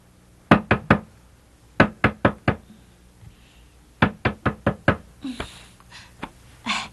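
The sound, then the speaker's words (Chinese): Knocking on a door in the middle of the night: loud, sharp raps in separate bursts, first three, then four, then five, followed by a looser run of several more knocks over faint background noise. “有人在敲门呢。”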